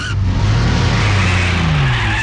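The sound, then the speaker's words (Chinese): A Buick speeds off onto a road through traffic. Its loud engine roars steadily while tires squeal, and a tonal whine drifts lower toward the end. “别克车高速地冲向公路，在车流中穿梭而去。”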